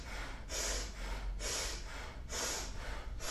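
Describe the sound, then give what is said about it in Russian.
Forceful bhastrika yoga breathing, with vigorous breaths pumped in and out from the belly. Rushing breath noise swells and fades in an even rhythm about once per second, fairly quiet throughout. “Начинаем бхастрику, очень мощно работаем животом. И вдох, и выдох.”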